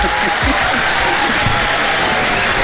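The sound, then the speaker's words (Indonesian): Audience applause as a singer is introduced: dense, even clapping from a crowd runs the whole time, with voices underneath. “Dengar tepuk tangan, Kak Leha nak nyanyi.”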